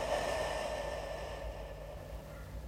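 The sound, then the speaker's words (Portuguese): A deep breath drawn in through the mouth during a breathing exercise for calming anxiety. It is a soft, steady airy rush that lasts the whole clip and eases slightly toward the end, with no talking. “Vamos inspirar pela boca, pelo nariz. Inspirar pela boca.”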